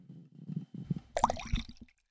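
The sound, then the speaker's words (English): Coffee pouring into a mug, soft liquid glugs and splashes that swell into a brighter gush midway, then trail off; faint and heard alone. “this is the sound of me pouring coffee into my mug.”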